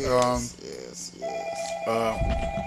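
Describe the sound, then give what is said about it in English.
Telephone ringing for an incoming call-in caller: steady electronic ring tones that change pitch partway through, with voices talking over them. “All right, we got a caller calling in. Let's see what we got.”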